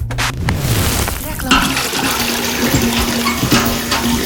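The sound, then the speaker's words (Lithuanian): Heavy rain pours down in a dense, continuous rush of water, loud and steady for about four seconds. “Ir vėl pila kaip iš kibiro.”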